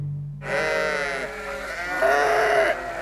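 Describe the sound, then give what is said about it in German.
Sheep bleating, brought to an island, in long, loud, wavering nasal bleats that run almost unbroken for over two seconds after a moment of quiet. “Sie könnten die Schafe zur Tarnung hergebracht haben.”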